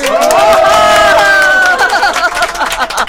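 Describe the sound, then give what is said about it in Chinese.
A crowd at a lively community gathering cheers and shouts, loud sustained voiced cries that hold steady for about two seconds, then break into more ragged, scattered calls that slowly thin out. “你看这么多人给你鼓掌啊”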